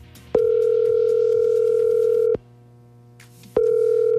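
Ringback tone on an outgoing phone call to a family contact, placed from a phone app. A steady, even tone holds for about two seconds, stops briefly, then starts again.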